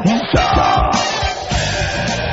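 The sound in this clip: Noise of a gathering crowd: a dense mass of many voices with some shouts, fairly loud and roughly steady throughout.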